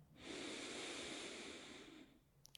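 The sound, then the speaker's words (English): A single deep inhale, a steady, fairly faint breath drawn in for about two seconds and then released into near silence, with a couple of tiny clicks at the end. “Let's take a deep breath, all of us right now. Inhale.”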